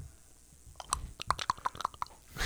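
Crunchy Captain Crunch cereal being chewed in a mouth: a quick series of many sharp, crisp crunches, fairly quiet, with no talking over them.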